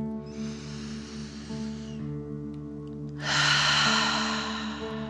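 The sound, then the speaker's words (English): Deep, forceful dragon-style breathing: a long breathy inhale, then a louder, harsher exhale out through the mouth, as if breathing fire, over a steady soft tonal background. “pretending you are breathing fire. Ready? Deep dragon breath in and out.”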